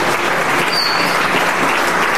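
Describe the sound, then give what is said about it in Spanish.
A church audience claps during a morning worship service, a loud, dense and unbroken wall of hand clapping that holds steady from start to finish. “Dele palmas al Señor en esta mañana.”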